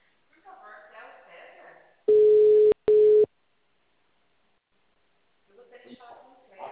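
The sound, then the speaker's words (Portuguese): Ringback tone of an outgoing phone call: a steady mid-pitched beep broken by a brief gap into two pulses, with talk before and after. “Agora tá chamando.”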